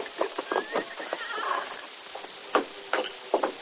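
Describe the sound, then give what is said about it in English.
A ridden horse whinnies while its hooves clip-clop in many uneven bursts. A high, shaky neigh rises over the hoofbeats at moderate volume, with no talking. “the always rash Jim Gatlin slipped out of Farron's cafe office and rode to Garrison”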